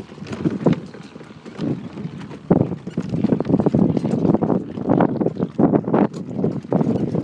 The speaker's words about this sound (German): sehr schönes Fortbewegungsmittel ist eine Kutsche hier auf Inishmore. Und wir sind gerade unterwegs.